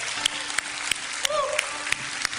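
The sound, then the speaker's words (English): Audience applause at a worship gathering: a steady, dense wash of clapping that fills the whole stretch at a moderate level, with sharper individual claps popping out at fairly regular intervals. “Would you give them a round of applause? Appreciation.”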